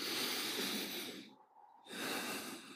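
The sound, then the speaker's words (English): A deep breath in and out, heard as two long, loud, breathy rushes of air separated by a brief pause, with no talk. “And take a deep breath.”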